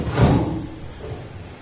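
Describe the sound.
A small cabinet door opens or shuts with a single dull, low knock that fades quickly into a faint, rumbling background.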